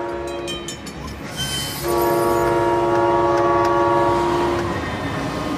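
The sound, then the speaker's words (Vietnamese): A train coming to a stop: a low rolling rumble, then a loud sustained tonal blast that holds for about three seconds and fades back to the rumble. “Cuối cùng thì đoàn tàu cũng dừng lại sau lưng Moore.”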